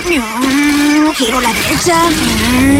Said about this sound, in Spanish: Va un BMW.